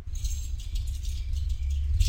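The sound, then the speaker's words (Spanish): Keys jangle as someone plays with a bunch of them, a light, continuous metallic clinking and rattling made of many small bright taps over a low steady hum. “juega con las llaves.”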